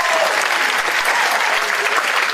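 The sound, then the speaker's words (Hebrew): Audience applause, a dense, continuous burst of many hands clapping at a steady level through the whole short clip. “קודם כל כפיים”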